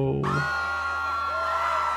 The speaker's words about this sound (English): yep, pay no attention to the screams in the background. It's perfectly normal.